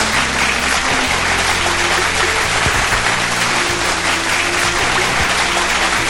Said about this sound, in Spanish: Y por supuesto, un aplauso para todo nuestro auditorio.